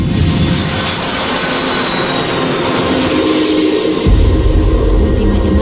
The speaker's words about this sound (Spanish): Hoy nos hemos subido de nuevo a un avión de Iberia, pero esta vez después de darle al play.